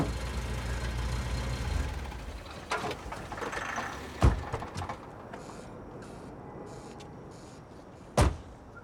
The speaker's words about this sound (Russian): К дому подъезжает машина